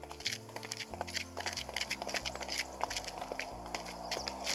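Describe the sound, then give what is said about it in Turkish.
Footsteps of a small panda walking: many soft, evenly paced steps in a steady rhythm, faint and without voices. “Tavşana veda eden Bobo yeniden yürümeye başladı.”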